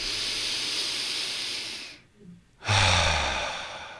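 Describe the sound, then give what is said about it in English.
Deep belly breathing in through the nose during a guided breathing exercise: two long, airy breaths separated by a brief pause, the second one stronger and more forceful. “So when you breathe in, see how far out your belly can go. So breathe in through your nose and let it go effortlessly. Two more.”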